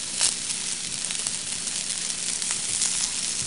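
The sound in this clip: Fried rice with vegetables sizzles in a pan, a steady bright hiss with scattered small crackles that holds at an even loudness throughout, with no talk.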